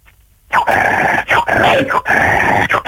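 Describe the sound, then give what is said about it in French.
A person imitates a dog barking, letting out a few loud, yelping woofs in quick succession. The voiced, bark-like bursts run almost back to back after a moment of silence, with brief gaps between them. “Moi j'imite le chien.”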